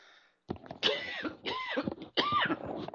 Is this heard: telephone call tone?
no